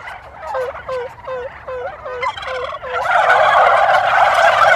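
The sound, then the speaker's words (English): Wild male turkeys gobble in reply to an imitated hen call: a rapid run of repeated warbling notes, then a louder, denser burst of overlapping gobbles. “if I do the female turkey, they're a little bit longer in responding because they're not quite sure where the female is, but I'll do it again.”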